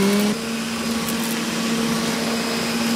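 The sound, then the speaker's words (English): A homemade fume extractor fan runs with a steady, airy whir and a constant low hum. Its tone shifts briefly near the start, then holds level and loud throughout. “Let's test our fumes extractor now to see if it sucks.”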